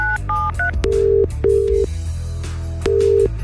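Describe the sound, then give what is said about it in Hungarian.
A telephone number is dialed with keypad tones: a few quick short beeps, then longer steady tones, over a low hum. “Tárcsázom is a lehetséges nyertest.”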